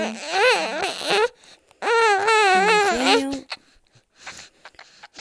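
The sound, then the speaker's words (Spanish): A baby cries after a Bexsero vaccination in two loud, wailing bursts with a short gap between them, followed by a few quieter whimpers. “Bueno, estos son los efectos colaterales de poner a Vexero en confinamiento. No sé si llora, si está molesto.”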